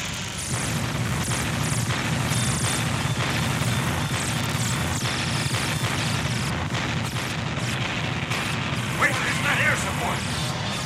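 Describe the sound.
Barrage of gunfire aimed at alien spaceships, a continuous loud roar of rumbling blasts and booms mixed with mechanical noise, with no separate shots standing out.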